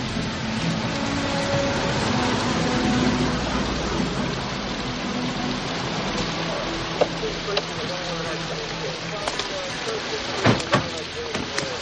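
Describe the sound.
Torrential rain in a film scene as several cars pull up at a house: a steady, broad hiss under a person talking.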